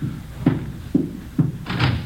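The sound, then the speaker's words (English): A door opening, heard as a few dull, hollow thuds at a loose, uneven pace, the last one longer and more drawn out. “Door's open. Let's have a look.”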